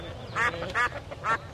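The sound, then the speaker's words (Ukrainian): Ducks quacking as two duck families squabble over a fish head: three nasal, raspy quacks in quick succession, rising out of a low, rumbling background clamor. “Там стояв жахливий галас. Дві родини качок билися за риб'ячу голівку, а дісталася вона кішці.”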